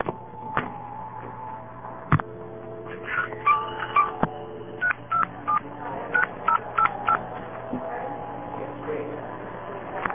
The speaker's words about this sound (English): Let me dial the payphone number.